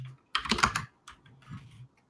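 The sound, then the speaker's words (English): Rapid typing on a computer keyboard: a dense burst of keystrokes, then a lighter, sparser run of taps after a short pause, with no talk. “Let me type this out for you.”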